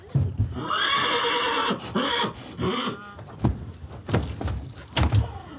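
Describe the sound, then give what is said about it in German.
A purebred Hanoverian stallion neighs in a long, loud, wavering whinny, followed by a few shorter snorting calls and scattered thumps. “Der rein rassige Hannoveraner Hengst ist zurzeit das erfolgreichste Pferd aus dem Stall der Insulanerin.”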